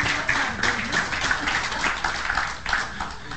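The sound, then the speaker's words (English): Audience applause welcomes a guest speaker to the pulpit at a church gathering, a continuous patter of clapping at steady, moderate loudness that thins slightly toward the end. “Give him a big hand and a Lonesome Road welcome.”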